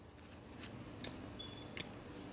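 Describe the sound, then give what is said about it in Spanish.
Someone takes a bite of a sandwich. A few faint, soft crunches and squishy bites sound over a quiet background hiss. “Así que le dejo la bola a ustedes en lo que me doy un bocado de sándwich.”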